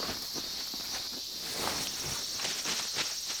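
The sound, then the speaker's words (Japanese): Cicadas drone in a steady, high-pitched shimmering buzz that holds throughout without pause, with no voices present. “相変わらずやな、ここも。セミの声しか聞こえへん。”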